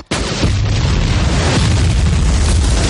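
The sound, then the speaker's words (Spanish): A World War II tank fires its gun near a bridge and a house explodes: one sudden heavy blast right at the start swells into a sustained, loud roaring rumble that carries to the end. “El tanque dispara.”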